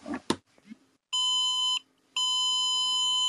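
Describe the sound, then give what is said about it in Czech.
Power bank beeping as charging of a connected device begins: a few clicks, then a short steady electronic tone and, after a brief gap, a longer one at the same high pitch. “powerbanka pípla krátce a dlouze a tím mi dala vlastně vědět, že to nabíjení toho připojeného zařízení bylo zahájeno.”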